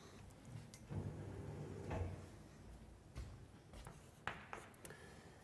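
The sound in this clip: Writing on a board during a mathematics lecture: faint, intermittent scratching strokes with a few sharper taps and clicks, no talking.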